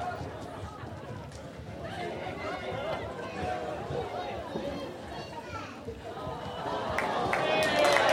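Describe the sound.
People running across a room, quick footfalls under a babble of children's and adults' voices, the noise swelling louder toward the end.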